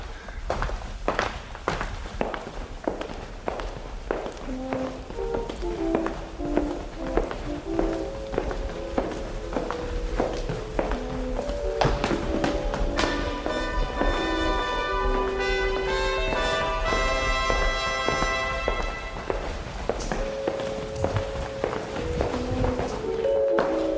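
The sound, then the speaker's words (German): Footsteps of people walking for real through rooms on an old site, a long, steady series of many hard steps over about twenty seconds with no talking. “Und wenn wir jetzt laufen, dann laufen wir wirklich echt, ohne dass wir auf der Stelle gehen,”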